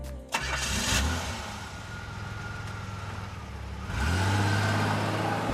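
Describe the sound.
A car engine starts as a sound effect: it cranks and catches into a steady rumbling idle, then swells into a louder rev near the end.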